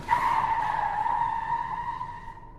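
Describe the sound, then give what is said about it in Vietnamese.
Tires squeal in a long, steady, high-pitched skid as a car swerves toward a cliff face on a mountain road to avoid an oncoming pickup truck, the squeal holding loud and then easing slightly toward the end. “sau cú lách xe vào vách núi để khỏi va chạm với chiếc bán tải chạy ngược chiều.”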